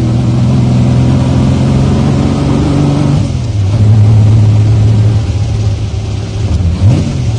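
A car speeding up on a country drive: a loud, continuous mid-pitched engine drone whose pitch drops partway through, as in a gear change, then a brief rising rev near the end.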